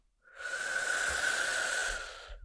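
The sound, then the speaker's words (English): A single slow, steady breath drawn through the nose during a guided breathing exercise, a soft airy hiss with a faint whistling tone that swells, holds for over a second and fades, heard alone. “Breathe in. And breathe out. Breathe in.”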